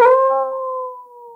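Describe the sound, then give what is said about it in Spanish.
A wolf howls, calling its young: one loud, long, steady-pitched cry that begins strongly and holds level before slowly fading, heard alone. “Yo entiendo lo que aullan estas bestias. Es un lobo que está llamando a sus hijos porque dice que ha visto comida apetitosa.”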